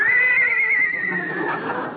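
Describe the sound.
A horse neighs in one long, loud whinny whose pitch slowly falls as it fades, heard alone.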